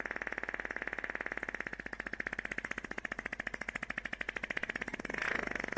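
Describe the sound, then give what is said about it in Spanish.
A woman's long, buzzy fart during surgery, a rapid train of evenly spaced pulses that holds steady for several seconds before swelling into a short, louder burst at the end. “Pero tenemos la grabación del pedo de la señora y lo vamos a escuchar desde el principio, por favor.”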